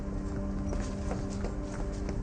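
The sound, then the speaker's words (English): Quick, evenly spaced footsteps of a man running down a hall: a series of sharp taps over a constant humming background. “He keeps her gaze, then turns to run down the hall.”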